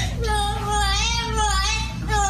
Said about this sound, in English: You have a temper tantrum? It's a parrot.